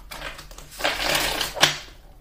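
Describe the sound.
Tarot cards being shuffled and spilling out all over: a soft, rustling swell of papery friction building and holding, then one sharper slap as cards land, fading quickly afterward.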